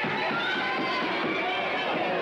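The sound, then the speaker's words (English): A crowd knocks on their tables and cheers, a dense, steady wash of many voices with soft rhythmic low thumps running underneath. “And everybody, you know, knocks on their table and cheers.”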